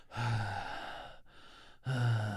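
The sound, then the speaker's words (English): A man's voice imitates two heavy, drawn-out breaths, each a loud, airy exhale, separated by a short pause. “two heavy breaths. He loves to do heavy breaths before speaking to me.”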